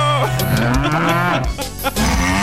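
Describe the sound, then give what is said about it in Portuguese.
A berrante cattle horn gives a loud, sustained buzzy blast with a wavering pitch, closely resembling a cow's moo. “O berrante aí, meu filho.”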